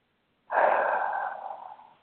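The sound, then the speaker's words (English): A single long, slow breath during a guided relaxation exercise. It is soft and breathy, starting abruptly and slowly fading out over about a second and a half, with no talk. “And let the body breathe naturally. Let the body do that thing that it knows how to do. Just inhale and exhale.”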